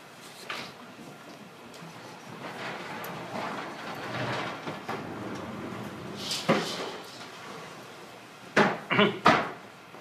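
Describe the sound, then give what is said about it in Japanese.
A window is closed during a church service: a soft sliding rumble, then a few sharp knocks and rattles close together near the end. “はい、じゃあ窓を閉めていただけますか。”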